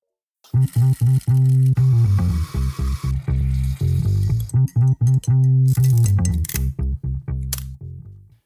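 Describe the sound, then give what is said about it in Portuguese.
A short intro jingle of loud, bright tones chopped into a fast stuttering rhythm. It starts abruptly and ends after a few seconds. “Recado dado, vamos para a vinheta e para o episódio.”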